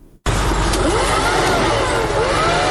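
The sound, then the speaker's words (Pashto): A vacuum cleaning machine sweeping dust and soil from a shop beside the northern bypass road in Kandahar city, a loud steady roaring whine that starts abruptly after a brief moment and runs on without a break. “محمود د جارو ماشین په واسطه خپل دکان صفا کوي.”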